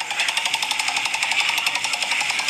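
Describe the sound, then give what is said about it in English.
Roulette wheel being spun, giving a rapid, steady clatter of many evenly spaced ticks that run loud and unbroken across the whole stretch, with no voices. “Okay, we're giving it a spin. That was a very, very masculine spin there, sir.”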